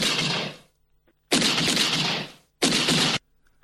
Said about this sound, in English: There's an actual recording of the shooting.